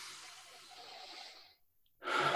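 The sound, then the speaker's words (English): A deep breath taken during an emotional-freedom tapping exercise for stress: a long, soft, breathy exhale fades out over about a second and a half, then a short silence, and a louder breath begins just before the end. “Big breath.”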